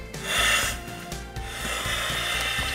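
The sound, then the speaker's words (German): Scraping and rubbing of parts being screwed back together after a seal was swapped out, during a training exercise with chemical protection suits. The grinding, rasping contact runs steadily throughout with a few low knocks, and no one speaks. “Wir hatten die Dichtung gerade rausgenommen. Ja, das ist der neue schon drin. Wir schrauben jetzt wieder zusammen.”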